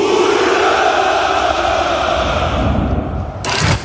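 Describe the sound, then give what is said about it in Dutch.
Crowd of many voices shouting hurrah at a Russian Victory Day celebration, a dense, sustained roar that stays loud throughout, with a brief brighter burst near the end. “De jaarlijkse hoera voor de overwinning in de Tweede Wereldoorlog klinkt dit jaar toch net iets minder overtuigend.”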